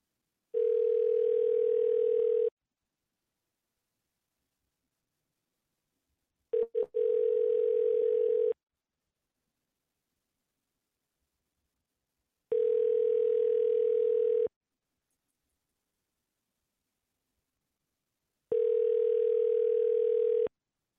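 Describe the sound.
Ringback tone on an outgoing phone call to a water damage removal company: four steady buzzing tones of about two seconds each, separated by longer silent gaps.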